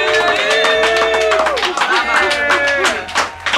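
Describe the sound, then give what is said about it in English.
An audience claps and cheers for guests, with loud whooping voices over quick, sharp claps throughout. “Now let's give it up for Ducey and Backwoods.”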